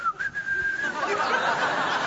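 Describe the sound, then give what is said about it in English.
A person whistling a song: a short, sustained, clear whistled phrase with a slight waver in pitch, followed by a loud, noisy, breathy stretch. “I started whistling the song.”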